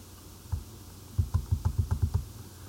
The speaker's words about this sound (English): And now you can begin to slowly peel the orange. And listen to it closely, the sound of the peel separating from the orange itself.